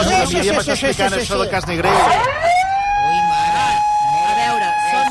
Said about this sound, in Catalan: No parleu d'això, que està passant un camió, eh? Què diu? Ve per allà un camió de megafonia que està deixant coses, eh?